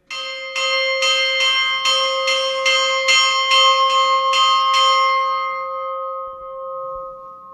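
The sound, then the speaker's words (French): Church bell of the Great Saint Bernard hospice at the mountain summit rung for noon, many rapid, evenly spaced strikes over a sustained metallic hum that lingers and slowly fades once the striking stops. “moi je vais vous laisser parce qu'il faut que je sonne pour midi.”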